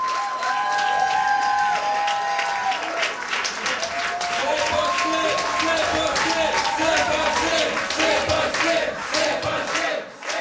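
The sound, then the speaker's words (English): Supporters cheering and applauding at a Québec solidaire campaign headquarters in Quebec City before voting day, a loud, continuous crowd roar of whoops, shouts and clapping throughout. “That's the sound of some supporters at their campaign headquarters for Québec solidaire in Taschereau in Quebec City.”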